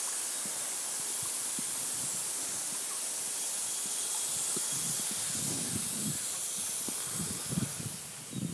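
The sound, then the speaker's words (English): Lawn sprinklers spraying water make a steady, broad hiss that runs through the whole clip, with some brief low bursts toward the end. “what is it called, lawn sprinklers. I'm just wondering how am I gonna get sprayed.”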